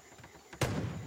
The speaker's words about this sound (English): So our stealth kill doesn't have to be close. We can do the stealth kill from far away. Let's take the shot.